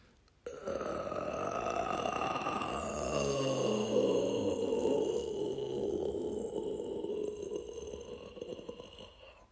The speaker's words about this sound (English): that groaning meant someone was having a not-so-great morning